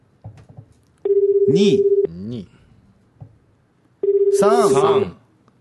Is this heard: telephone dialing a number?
yes